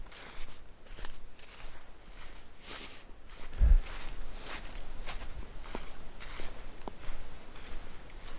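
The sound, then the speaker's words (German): Footsteps walking through a forest at night around a small lake: a steady series of soft crunching steps on the ground, with one louder thump partway through and no talk. “Gehe ich ein Stück zurück und umgehe diesen kleinen See.”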